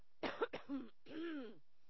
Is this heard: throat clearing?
yes